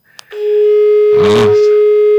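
An incoming-call tone rings on a radio studio phone line: after a brief click, a steady, loud, buzzy electronic tone holds for about two seconds, with a short burst of noise midway through.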